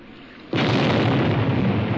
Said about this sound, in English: And then a second ball of fire rose from the bow of the ship. And then another and another explosion until instead of a ship, I was looking only at fire,